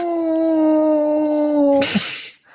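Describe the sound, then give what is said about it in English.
A person imitates a wolf howl with one sustained, harmonic-rich wail that drifts slightly lower in pitch for nearly two seconds. It ends in a brief breathy burst of noise and fades out. “See, and now I put the call out. There should be wolves here in seconds. Wait a minute. That's not what I wanted. Hey, did you hear that lame human wolf call?”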